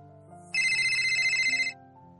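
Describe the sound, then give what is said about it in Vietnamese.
A phone ringtone sounds for an incoming call: one bright, high, tonal ring lasting just over a second, clearly louder than a low, steady background. “Một giây tiếp theo, bà Lâm đã gọi điện thoại lại.”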